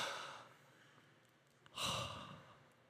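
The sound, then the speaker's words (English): A group draws a deep breath together, heard as two long airy rushes of breath, the second louder and fuller, with no speech over them. “So I want you to take a deep breath with me, okay?”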